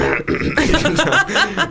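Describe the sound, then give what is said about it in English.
A voice imitates an actor trying to keep talking with something stuck in his throat, with strained, croaking, gurgling vocal noises and throat-clearing sounds in a short burst. “one of the actors was saying that he had like something stuck in his throat, and he's supposed to be saying some really important stuff. Stuck in his throat. So he's kind of like trying to keep going. He's like,”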